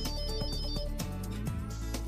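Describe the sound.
A melodic phone ringtone sounds for an incoming call. Its tonal notes step through a repeating tune and play loud and steady for the whole stretch, with no talk over it.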